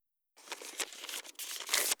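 Paper is crinkled and torn by hand while making paper animals for a forest craft scene. After a brief silence come irregular rustles and tears, ending in a louder crumpling burst near the close.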